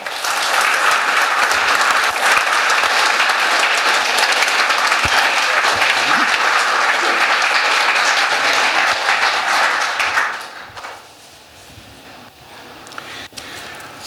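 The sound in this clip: An audience applauds to welcome two speakers at an evening talk on Formula One driver Ayrton Senna. Steady, loud clapping runs for about ten seconds, then fades to quiet murmuring with a few stray claps.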